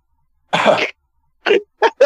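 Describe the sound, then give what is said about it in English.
Voice imitating a cough, with one longer harsh burst followed after a pause by three short, sharp bursts in quick succession, alone against silence. “Mine's a bit more, it's people coughing, but it's when it's like a single cough that's like,”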